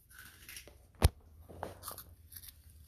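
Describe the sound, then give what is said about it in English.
Cheese puffs being eaten: one sharp, crisp crunch of a bite, then soft, faint chewing noises, quiet overall with no talk. “I'm sure my listeners just would love to listen to you eat cheese puffs.”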